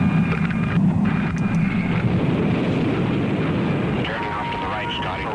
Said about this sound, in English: Launched from beneath a B-52 bomber, America's X-15 flew beyond the atmosphere into space. Launch.